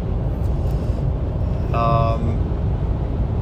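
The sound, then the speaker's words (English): Car being driven hard on the way to catch a ferry, giving a continuous low road and engine rumble with a brief high whine rising over it partway through. “I'm pushing. I'm pushing fast, pushing pedal, driving fast, that is. And I'm really hoping to catch this ferry.”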